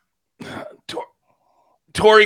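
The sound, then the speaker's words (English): Coughing and throat clearing from a man with something stuck deep in his throat and chest: a few rough, harsh bursts separated by short pauses, with the last burst the loudest and most strained. “got something in my throat”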